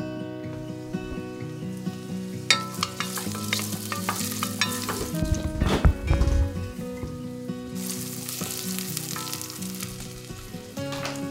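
Onions and garlic sauté in olive oil in a saucepan, giving a steady hiss of sizzling with a few clatters of stirring, the busiest stretch near the middle, and no talk.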